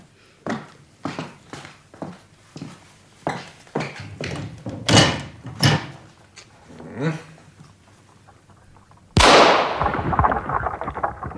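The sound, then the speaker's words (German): A rifle shot fired through a window into the air, one sharp, loud crack with a long, noisy tail, coming after a series of softer thumps. “Schieß mal mit deinem Gewehr durchs Fenster. Einfach so in die Luft.”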